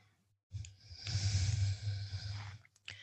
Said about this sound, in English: Breathe in. And we'll breathe all the way out.